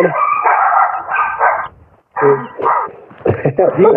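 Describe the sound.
Excited dogs bark and yip in short bursts mixed in under steady speech, with a brief quiet gap partway through.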